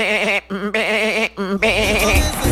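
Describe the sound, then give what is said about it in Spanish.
Three wavering sheep bleats, each a loud, quivering cry, the last one rougher and lower with extra noise underneath, separated by short pauses. “El borrego, pues, para el que no entienda, el borrego.”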